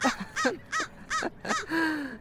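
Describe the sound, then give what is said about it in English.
A crow caws repeatedly: six harsh, raspy calls in an even rhythm, moderately loud and with no talk, the last one drawn out longer and flatter than the rest. “It's really all just a big joke for Mr. Crow. So, yeah, he's literally mocking us right now.”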